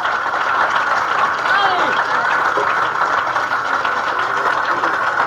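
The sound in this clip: A comedy club audience in Sacramento applauds and cheers as a comedian is welcomed to the stage, a loud, dense, unbroken roar of clapping lasting over five seconds with voices mixed into the crowd noise.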